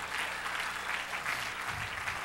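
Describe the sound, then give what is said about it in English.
A church audience clapping their hands in a steady, dense stream of applause that holds an even loudness throughout. “Clap your hands unto him and bless his name.”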